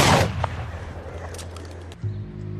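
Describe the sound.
A single loud gunshot from a handgun cracks out at the start, its echo fading quickly, followed by a low steady hum.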